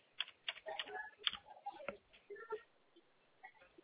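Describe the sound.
Rapid, irregular clicks of typing on a computer keyboard as details are entered during a phone call, faint, with uneven bursts of keystrokes and short pauses and no voices.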